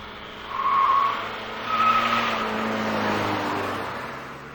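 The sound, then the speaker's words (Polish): Car tyres squeal and skid under hard braking while the driver keeps steering during a driving exercise: a sustained, rough screech over road roar that swells twice before holding steady to the end. “Hamowanie mocne. Do końca walcz, utrzymaj skręt.”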